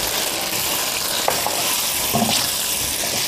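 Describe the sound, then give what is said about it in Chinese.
Stir-frying with soy sauce, oyster sauce, sugar and chicken bouillon: a loud, steady sizzle fills the whole stretch, broken by a few light knocks and scrapes of the utensil against the pan. “少量的生抽，少量的蚝油，翻炒一下，再加入少量的糖以及鸡精，”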